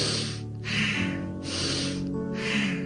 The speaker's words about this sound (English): Bastrika breathing, it's supposed to release toxins from your body, clean the lungs. In 1 second, out 1 second.